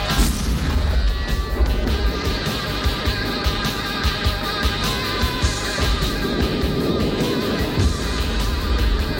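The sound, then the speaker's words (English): Nighttime battlefield combat with a landmine exploding as Marines fight, heard as a loud, dense, continuous roar of rumbling booms and crackling blasts that never fades. “At night, on a battlefield, many Marines engage in combat. A landmine explodes.”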